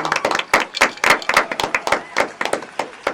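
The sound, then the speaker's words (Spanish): Applause made of distinct, separate hand claps in a quick, uneven rhythm, many claps in a row, fairly loud and with no crowd roar behind them. “¡Un aplauso!”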